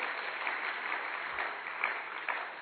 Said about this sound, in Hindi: तो इन दोनों के लिए तालियां बजाएं,